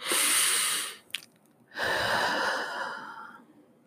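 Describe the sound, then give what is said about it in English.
A deep breath, heard as two long airy rushes of breathing separated by a short pause, fairly soft and with no talk over it. “Everybody take a deep breath in.”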